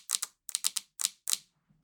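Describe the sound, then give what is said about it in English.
Fingers tap impatiently on things. Many quick, sharp, light taps fall in a few rapid clusters separated by short pauses, with no other sound around them. “But if I do, I can tap on things. Oh. Uh-huh. Tippy tap. This is how it sounds when I'm impatient.”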